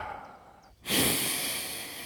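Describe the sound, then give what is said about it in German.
A deep, forceful exhale during a breathing exercise: after a quiet moment, a loud breathy rush of air begins and stays strong, fading only slightly, with no talk. “Und ihr atmet tief ein und mit einem vierfachen H atmet ihr aus und dabei senkt ihr die Arme.”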